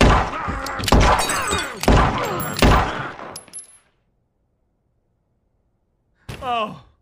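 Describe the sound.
Gunshots ring out in a tense cartoon standoff: a few sharp, loud bangs cut through overlapping voices, then the sound drops to silence before a brief final noise.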